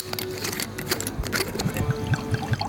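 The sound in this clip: Sauvignon Blanc white wine poured into a glass, a continuous trickling splash with soft gurgling pulses that keep a steady flow to the end.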